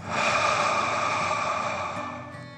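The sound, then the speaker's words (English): A deep breath in and out, taken as part of a calming bedtime relaxation exercise for children: one long, steady, breathy rush of air that holds level and tapers slightly toward the end, with no voice over it. “let's take three more deep dragon breaths. Deep breath in and out.”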